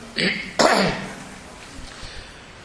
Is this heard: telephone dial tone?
no